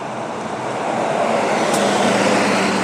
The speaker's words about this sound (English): A bus from British Airways has just passed. It's a crew bus heading to the Premier Inn.